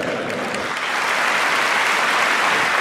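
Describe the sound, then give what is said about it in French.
Sustained applause from a crowd of members of the British parliament: dense, steady clapping with no break, loud and even throughout. “La foule de députés applaudit et vote à la quasi-unanimité les trois propositions du gouvernement.”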